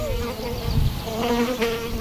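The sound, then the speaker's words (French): A large fly with a long, dark body about a centimetre long buzzes around, giving a steady droning hum that wavers slightly in pitch for the whole clip, with no talk. “Qu'est-ce qui nous tourne autour comme ça? Oh non, c'est un temps. On dirait une grande mouche avec un corps allongé.”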